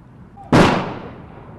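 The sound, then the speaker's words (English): Rifle salute volley fired at a Marine funeral in Colorado Springs: one sudden, loud, sharp crack that rings out and fades slowly over the following second. “Corporal Kyle Powell's fellow Marines paid tribute to him at his funeral in Colorado Springs with a rifle salute.”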